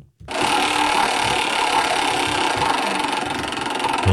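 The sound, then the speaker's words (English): A prize wheel spinning in a game segment gives a dense, rapid clicking rattle that starts abruptly and runs loud and even, without pause, throughout. “so spin that wheel. Let's see what we're going to play today”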